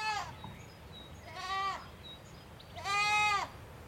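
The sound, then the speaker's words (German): Lambs raised by bottle and bucket bleat faintly in three separate wavering cries, spaced about a second apart, with the last one the longest and loudest. “Im Hintergrund meckern einige Lämmer, die ich mit Flasche und Eimer großgezogen habe.”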